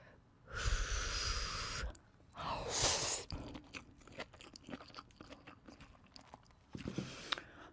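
Eating and chewing a mushroom dish, beginning with a few loud breathy bursts and followed by many small, faint crunching and chewing clicks in an irregular rhythm, with no talk.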